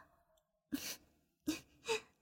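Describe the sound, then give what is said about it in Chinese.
Rapid breathing, three short breathy puffs in quick succession, faint and heard alone with quiet pauses between them. “爸爸，你的呼吸有点急促了”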